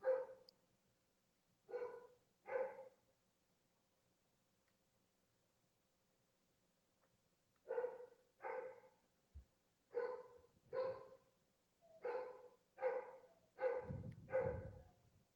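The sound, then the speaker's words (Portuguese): A dog barking faintly, in many short sharp barks. The barks come in clusters, with a long quiet gap early on and a denser run toward the end. “El perro ladra”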